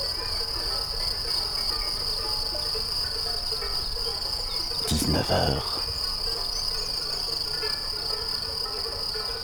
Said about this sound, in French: Je vous amène pour une carte postale sonore en moyenne montagne.